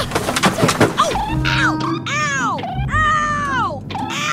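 A creaking squeal as an overhead luggage bin hatch is opened on a plane, drawn out in a few bending, high-pitched strains after some short knocks, with no voices.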